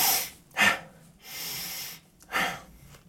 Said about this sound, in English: So deeper inhale, shorter exhale. Yeah, so it looks something like...